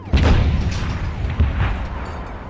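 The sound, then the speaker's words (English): A deep artillery boom as a field gun fires a shell at a Martian tripod, trailing into heavy low rumbling with a further dull thud. “Quick, get the range. Shift 30 meters. 30 meters. Projection, 27 degrees. 27 degrees. And fire!”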